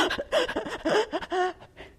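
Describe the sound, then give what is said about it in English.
A voice imitates someone hyperventilating between screams: rapid, choppy panting gasps mixed with strained, pitched vocal squeaks, rising and falling in quick succession. “Nicole had gone into the second phase of hysteria and she was hyperventilating. So in between screams, she was going,”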